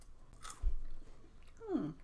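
Crunchy chewing of a lavender-colored white chocolate wafer, a few crisp bites and a brief low crunch, with soft mouth noises in between.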